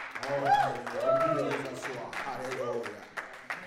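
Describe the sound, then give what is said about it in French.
A church audience cheers and applauds, with raised shouting voices rising and falling over scattered clapping, the sound swelling and easing in waves before thinning toward the end. “Est-ce qu'on peut acclamer le Tout-Puissant?”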